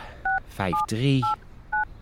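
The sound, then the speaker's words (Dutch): Telephone keypad dialing tones: four short, evenly spaced electronic beeps, with a voice speaking between them. “Wat is het nummer van die man? Zou ik eerst even bellen?”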